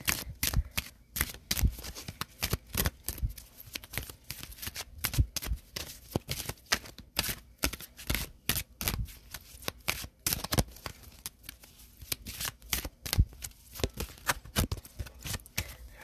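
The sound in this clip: Queen of the Moon oracle cards shuffled for a reading: many quick, papery riffles and soft slaps pour out in dense, uneven bursts throughout, with no voices.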